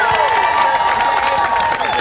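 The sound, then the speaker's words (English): A crowd on an outdoor plaza applauds and cheers during a veterans tribute, with a dense, steady wash of clapping and voiced whoops rising above it. “Guys on the plaza, can we have a big round of applause for this incredible...”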